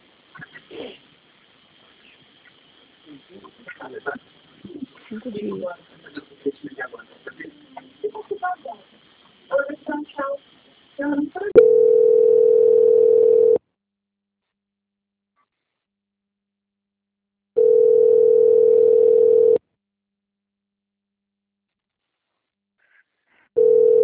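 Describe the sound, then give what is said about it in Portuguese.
Telephone tones while a call is transferred: after a stretch of people talking, three steady mid-pitched beeps of about two seconds each sound alone with long silent gaps between them, the last one cut off. “Eu peço que a senhora aguarde em linha que eu vou transferir o contato da senhora para o controle de qualidade que dará continuidade à contratação, ok?”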